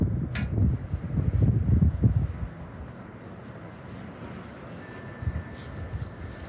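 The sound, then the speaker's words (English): Wind blowing outdoors in a backyard buffets the microphone with loud, low rumbling gusts for the first couple of seconds, then settles into a quieter, steady rush broken by a few smaller gusts. “Can you hear this wind blowing?”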